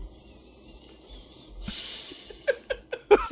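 A strong nasal inhale makes a breathy, hissing draw of about half a second, followed by several short, snorting sniffs. A faint high whistling tone comes before it.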